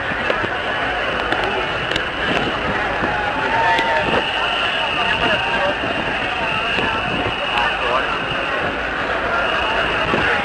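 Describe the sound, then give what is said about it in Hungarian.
A crowd boos a passing march as it approaches Liszt Ferenc Square, a loud, continuous, rough roar of disapproval that barely varies in level. Voices mix in throughout. “Egy elég erőteljes fújolás van.”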